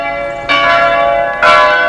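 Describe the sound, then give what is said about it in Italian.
Church bells ringing in Denmark during a nationwide peal of 350 strokes, with a rich, sustained metallic hum broken by two fresh loud strikes about a second apart. “Il prossimo 13 dicembre tutte le chiese di Danimarca sono state invitate a suonare per 350 volte in tutto il paese, 350 rintocchi”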